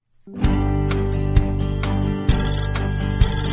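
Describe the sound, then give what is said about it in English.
A telephone rings with a bright, sustained tone, marked by four evenly spaced louder strikes over a steady ringing bed, with no talk. “Ring, ring, telephone. I answer the telephone. I talk on the telephone.”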